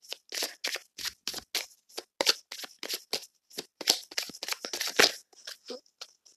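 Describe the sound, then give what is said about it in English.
Tarot cards are shuffled and drawn in many quick, crisp, papery snaps and rustles, faint and irregular, with no talking. “I'm going to pull for a few more cards.”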